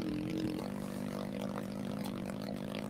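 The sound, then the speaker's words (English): A pit bike engine running with a steady, faint, low droning hum that holds an even pitch throughout. “Still hear the other bike going. Yeah. Well, there's nothing wrong with hearing a pit bike.”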